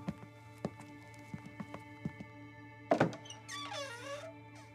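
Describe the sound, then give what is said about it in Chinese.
A wooden antique shop door creaks open: a few soft knocks and a heavier thud, then a drawn-out, wavering creak rings above a steady low hum. “店门吱呀一声被推开了，走进来两个人。”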